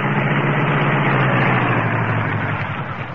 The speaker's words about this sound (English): Keep driving. Around the corner. Into the alley. We'll park there.